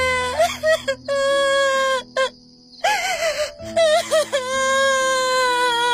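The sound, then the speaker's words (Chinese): Wailing sobs rise in drawn-out, quavering moans broken by short gasping pauses. The crying is high and tremulous, with whimpering breaks between the long, loud tones. “呜呜地哭起来，越哭声音越大”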